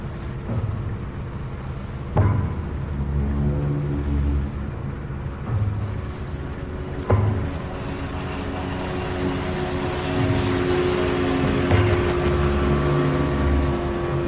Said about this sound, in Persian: قایقا رسیدن به لنج ماهیگیری.